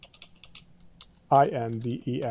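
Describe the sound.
Typing a file name on a computer keyboard produces a short run of faint, quick key clicks, then a person starts talking over it.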